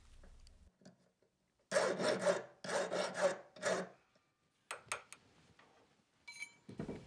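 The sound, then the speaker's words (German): A metal file rasps away the edge left by forging on a blacksmith's round, ring-shaped workpiece: several loud, dry scraping strokes in quick succession, followed by softer scattered clinks and scrapes. “Zwischendurch feilt er die durch das Schmieden entstandene Kante weg.”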